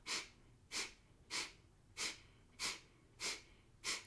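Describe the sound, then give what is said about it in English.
Forceful breaths pushed out through the nose during a meditation breathing exercise, seven short, faint, evenly spaced puffs in a steady rhythm, with no talking. “As you draw your belly in towards your back, you'll force air up and out your nose.”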